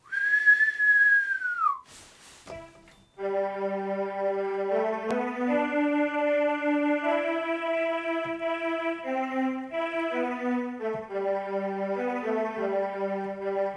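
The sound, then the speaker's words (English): A whistled tune in the style of an old Irish traditional song opens with a brief high sliding tone, then moves into a steady melody of held notes that carries on without any talking. “Sounds like some kind of old Irish traditional song.”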